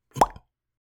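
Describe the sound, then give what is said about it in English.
A single distinct pop, short and hollow, with a soft trailing bump just after it and then silence. “There was a distinct popping sound, and suddenly, instantly, I was no longer a mosquito tapping into a human's vein.”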